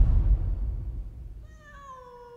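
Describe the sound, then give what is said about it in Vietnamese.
A cat held in someone's arms in a banana garden gives a single drawn-out meow, clear and fairly high, sliding gently downward in pitch after a stretch of low rumbling noise. “Bắc Phúc, là bố nó đang đứng ở trong vườn chuối, tay đang ôm con mèo.”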